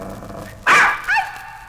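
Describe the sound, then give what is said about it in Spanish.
Barking like a dog, as a mischievous child crouches behind women to scare them like a dog about to bite their calves: two sharp barks, the first louder and harsher, the second shorter and higher. “asustar a las señoras agachándose tras ellas y ladrando como perro que va a morder las pantorrillas.”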